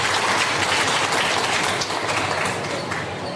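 Sustained applause from an audience at a gathering in Mysuru, a dense, even wash of many hands clapping that holds steady for about three seconds and eases slightly at the end.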